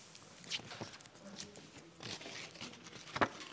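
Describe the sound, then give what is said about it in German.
The last two cards being stuck onto a board, with a few faint, brief rustles and a sharp, tearing crackle near the end. “So, und jetzt klebe ich meine letzten beiden Karten.”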